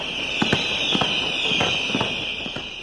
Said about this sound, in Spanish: Casi 6 minutos y medio con 214 kilos de pólvora disparados.